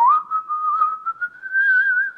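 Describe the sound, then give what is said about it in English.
A person whistles a melody in a clear, sustained tone that wavers slightly and slides gently upward in pitch, heard alone. “Like, I think there's a melody that goes, and it's whistled.”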